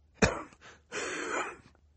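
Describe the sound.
A man coughs into a handkerchief: one sharp, muffled burst, then a longer breathy, rasping stretch, with no talk.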